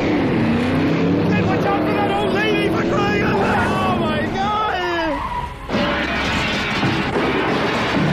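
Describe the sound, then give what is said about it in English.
A car being driven fast, its engine roaring steadily throughout, with people talking over the constant motor noise. “Do you have to drive everywhere like you're driving on a police chase?”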